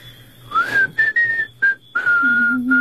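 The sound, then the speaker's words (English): A person whistles a short tune in several clear, high, pure-toned phrases separated by brief gaps, some notes held and gently bending in pitch, with no other sound behind them. “Will you show me how to do that? What, whistle? Yeah. Easiest thing in the world.”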